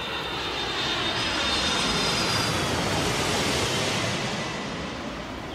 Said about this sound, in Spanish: Acabamos de aterrizar aquí. Cogimos el avión hasta Amsterdam.